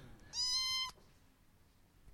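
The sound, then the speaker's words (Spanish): A new female cat in a house gives a single short, high, clearly tonal meow, followed by faint background quiet. “Ella es la gata nueva que tenemos acá en la casa.”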